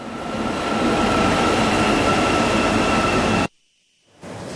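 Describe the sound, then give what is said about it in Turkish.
New metro train cars running in Istanbul: a loud, steady rumble with a faint high whine. It cuts off abruptly for under a second, then resumes. “İstanbul Büyükşehir Belediyesi yaklaşık 5 yılda İstanbul'a 672 yeni metro aracı kazandırmayı hedefliyor.”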